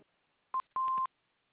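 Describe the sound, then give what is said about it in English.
An answering machine beeps: a short electronic tone, then a longer one at the same steady pitch, clean against near silence. “Please leave us a message after the beep.”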